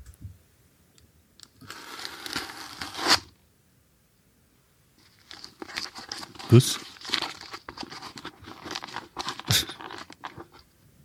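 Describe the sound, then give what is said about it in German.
Crinkling and tearing of the packaging of a new DSLR camera comes in two bursts of crisp rustling and ripping, a shorter one, then a pause, then a longer, busier stretch, with a brief spoken word. “Das war das Aufreißen der Verpackung der neuen Spiegelreflex.”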